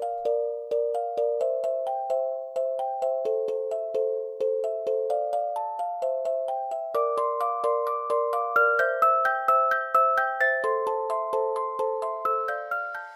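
A snippet of music composed for a game: a tune of bright, plucked, bell-like notes in a steady, even rhythm, with the melody climbing higher in the second half and no voices.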